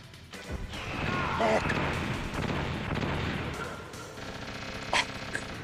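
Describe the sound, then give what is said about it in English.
Missiles exploding in a Metal Gear Solid video game: heavy crashing booms blend into a sustained noisy rumble, with a couple of sharp bangs standing out near the end. “I'm like running at missiles.”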